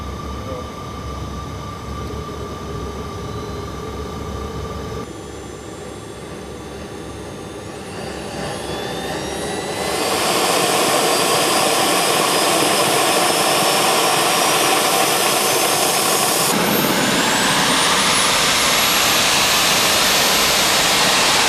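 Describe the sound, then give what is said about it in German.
A small jet aircraft engine is switched on: a steady hum gives way to a thin whine climbing in pitch, then a sudden jump to a loud, broad roar that surges again near the end as the whine keeps rising. “So, dann schalten wir jetzt mal das Flugtriebwerk ein.”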